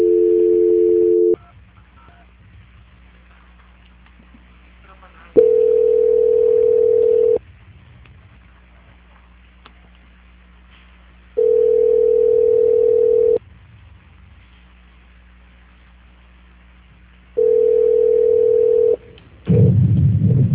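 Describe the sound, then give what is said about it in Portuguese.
Telephone line tones sound during a call transfer: four steady, mid-pitched tones, each about two seconds long and spaced roughly six seconds apart, over a faint low hum, ending in a brief rougher burst. “Só um minutinho que a ligação cai, porque nós estamos transferindo para São Paulo, né?”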